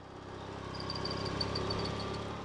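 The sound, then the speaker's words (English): A vehicle engine hums steadily while driving around a farm near Tipton in central Missouri. Faint, high, rhythmic insect-like chirps sit above the low running drone throughout. “Bill Stouffer is driving around his farm near Tipton in central Missouri”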